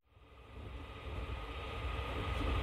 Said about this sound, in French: Bienvenue aux voyageurs nous ayant rejoints dans le train en gare de Dijonville. Nous vous rappelons que notre TGV est sans arrêt jusqu'à Paris-Gare de Lyon.